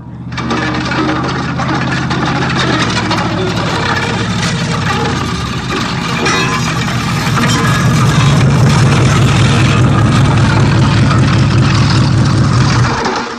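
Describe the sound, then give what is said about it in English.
A 1953 Oldsmobile drives up, its engine a loud, steady motor drone that deepens into a heavier rumble partway through. “Suddenly, Zadie drove up in his 1953 Oldsmobile.”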